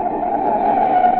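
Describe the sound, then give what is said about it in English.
A car's brakes jammed on in an emergency stop, with the tires giving a steady, loud, high squeal that holds unbroken for just over a second, with no voices. “That's the sound of a car as a desperate motorist has jammed on the brakes in an emergency.”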